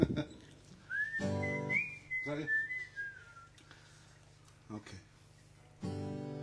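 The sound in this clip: Someone whistles a short tune, a clear high melody with smooth glides that drifts slightly lower at the end, heard between and over louder bursts of other sound.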